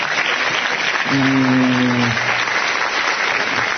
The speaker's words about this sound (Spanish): Sí, sal, por favor, un aplauso para él.